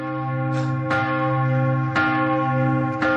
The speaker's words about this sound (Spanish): Corta la cuerda de la campana.